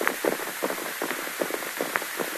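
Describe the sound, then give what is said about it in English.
Rapid hoofbeats of two horses galloping off in a rush in a western adventure scene, heard as a dense, uneven patter of soft thuds at a brisk, steady pace, fairly faint throughout. “The way those two hombres galloped off in such a rush”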